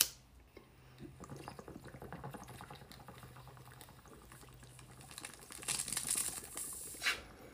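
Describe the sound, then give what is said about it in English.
Water bubbling in a bong's resonating chamber: a steady low gurgle that swells into louder, busier bubbling toward the end. “Bong here. And this is what we get here. And this is the sound of my lovely resonating chamber.”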